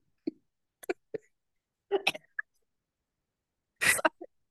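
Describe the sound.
A person choking and coughing in a series of short, irregular bursts, with several clipped coughs and gasps and two longer, harsher spasms separated by silence.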